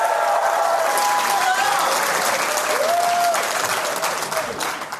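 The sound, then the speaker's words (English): An audience applauds at a live comedy show at Largo on La Cienega in Los Angeles, sustained dense clapping with cheering voices over it, holding steady before thinning out and fading in the last second. “I didn't get it out before you started applauding.”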